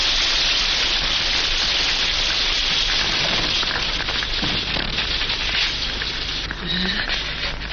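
Steady rain falling outside a villa at night: a loud, dense, unbroken hiss of drops holding an even level throughout.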